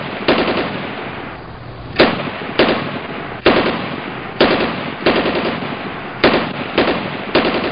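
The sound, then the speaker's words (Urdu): Gunfire cracks out during a street rally, many sharp loud shots in short bursts at irregular intervals with no talk. “Rally جب گل plaza پہنچی تو rally میں چند شر پسند عناصر کی فائرنگ کی وجہ سے بھگدڑ مچ گئی۔”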